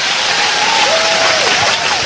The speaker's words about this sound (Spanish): Dale un buen aplauso al Señor.